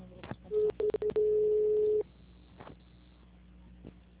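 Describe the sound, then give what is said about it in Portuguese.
A telephone line tone plays as a bank call is transferred to a payroll-loan service agent. A steady, moderate tone lasts about a second and a half, broken by brief gaps near its start, then gives way to faint clicks and line hiss. “enquanto eu transfiro sua ligação para um atendente da central de consignado continuar com seu atendimento.”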